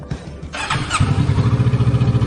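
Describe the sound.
Motorcycle engine with clutch assist on an early-morning test ride: a rough burst of noise, then a steady, throbbing low idle with an even, rapid pulsing rhythm.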